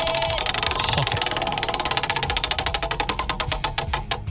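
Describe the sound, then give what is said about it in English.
Prize wheel of games spinning during a game segment: a long run of sharp ticking clicks, fast at first, then slowing and spreading farther apart as the wheel winds down. “You want to spin the wheel of games.”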